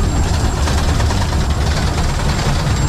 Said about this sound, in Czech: Poprvé v životě jedu parní lokomotivou hned vedle strojvedoucího